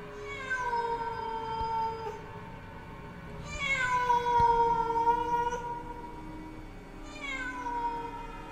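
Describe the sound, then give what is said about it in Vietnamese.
Cats meowing mournfully at night: long, high, wavering wails that overlap and swell in a few drawn-out cries, steady and plaintive throughout. “lẫn trong cái tiếng mèo kêu ai oán”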